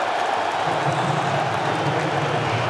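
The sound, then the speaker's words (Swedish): A World Cup stadium crowd reacts as Belgium brings on Romelu Lukaku for De Ketelaere, producing a steady, loud, dense roar of many voices with no distinct claps standing out. “Och ni hör på publikens reaktioner.”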